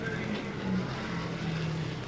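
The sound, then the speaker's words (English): A race car engine drones by on the track during a race, a faint, steady low motor hum with a slight wavering in pitch. “Still on the track, rolling by in front of us, Tony Bettenhausen”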